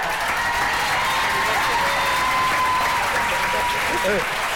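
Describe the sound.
Sustained audience applause, a standing ovation: dense, steady clapping from a large crowd filling the whole stretch at constant loudness, with faint voices and a few whoops mixed in.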